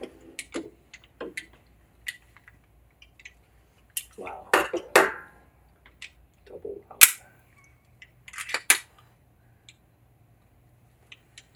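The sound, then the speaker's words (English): Metallic clicks and rattles of a pistol magazine being inserted and handled, with a few scattered sharp ticks, two denser clusters of rattling, and one loud snapping click partway through. “And let's put that mag back in.”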